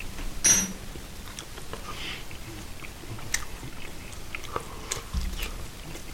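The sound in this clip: Chewing of minced beef fried in rapeseed oil with a spice blend and salt: faint, soft crunchy bites and mastication noises, with a couple of sharper bites standing out and no talk.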